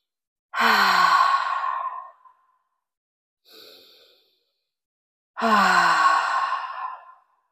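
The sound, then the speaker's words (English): Deep breaths exhaled loudly during a guided relaxation exercise: two long, forceful breathy sighs, each fading out slowly, with a faint, short breath drawn between them and silence around each. “We're going to start with three deep breaths and exhaling loudly like we always do. So here's our first deep breath.”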